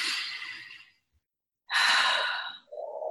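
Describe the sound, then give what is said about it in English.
Big deep breaths, with an airy breath sound, a pause of silence, then a louder, fuller rush of breath, followed by a lower, softer breathy tail. “Just take a big deep breath.”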